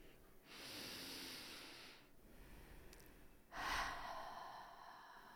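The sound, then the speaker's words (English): A group takes a deep breath together before a conversation: two long, soft, airy swells of breath, the second louder and sharper, with no talking. “let's all join in and just start with taking a deep breath.”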